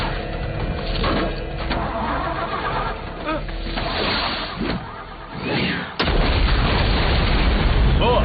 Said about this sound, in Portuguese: Cuidado, ela tem uma granada! É uma granada! Vamos sair daqui!